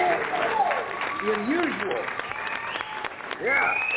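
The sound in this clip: Applause and cheering greet the guests of a wrestling talk show, a dense wash of clapping that holds steady throughout while voices call out over it.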